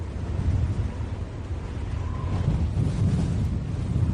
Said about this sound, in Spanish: es el viento que ha sido protagonista indiscutible del día, rachas de hasta 111 kilómetros por hora en Santander